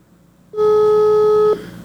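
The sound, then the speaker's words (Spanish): A telephone call being dialed, heard as a single steady ringback tone lasting about one second, clear and fairly loud against a quiet background. “A ver, déjeme marcarle al número que ella me mandó. A ver, denme un segundo, por favor. A ver, aquí le estoy marcando.”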